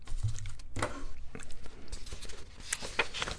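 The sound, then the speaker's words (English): Objects on a desk clatter and scrape as items are moved aside to clear workspace, giving a run of many short knocks, taps and rustles at moderate loudness with no steady rhythm. “Let me create a little room on my desk. I need a bigger workspace.”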